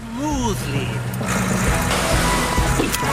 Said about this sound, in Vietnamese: Cháu cần lái xe nhanh hơn một chút, nhưng cháu vẫn có thể lái xe một cách mượt mà.